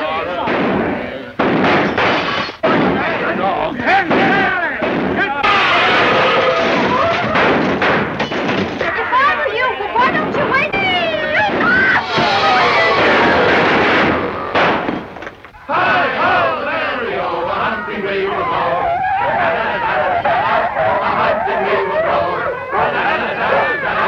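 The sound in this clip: Gunshots from a trap shooting scene ring out amid loud shouting voices and general commotion, with sharp bangs scattered through a busy, continuous mix.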